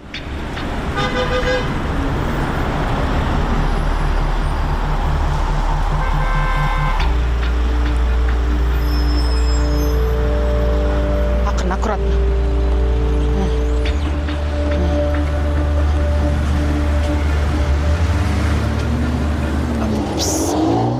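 A city bus rolls through morning traffic with a loud, steady engine drone whose low tones shift a few times, and horn-like tones sound early on with no talk.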